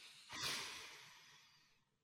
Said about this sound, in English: Take a deep breath in.